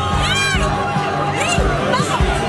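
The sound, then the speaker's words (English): A crowd in Gibraltar cheers and shouts as the border wall with Spain comes down, a loud and continuous mass of many voices with high, rising and falling shouts throughout. “cheering as the border wall with Spain comes down after years of negotiations.”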